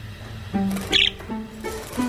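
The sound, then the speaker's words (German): A pet bird, let out of its cage so the cage can be cleaned, gives a brief burst of high chirps in the middle, with faint lower sounds around it. “Ich lass schon mal Kuckuck raus, dass wir den Käfig sauber machen können. Komm, Kuckuck, ja, komm.”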